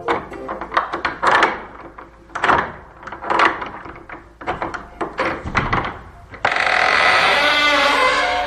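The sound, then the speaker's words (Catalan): An old monastery door at Poblet opens with a run of heavy wooden thuds and rattling knocks at uneven intervals, loud and close together, before a steady rushing noise takes over at the end. “La porta s'obria amb un nyec i de dins en sortí una veu que els va dir:”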